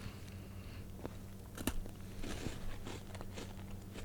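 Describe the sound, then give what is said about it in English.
Biting into a crunchy peanut butter and jelly wafer snack gives a few faint, crisp crunches spaced apart, with softer chewing crackles between them. “Oh my God, it tastes like you're biting into a wafer. They're a wafers. Peanut butter and jelly sandwich.”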